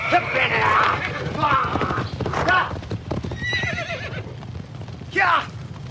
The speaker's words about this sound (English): He quickly opens the pen and releases the horses.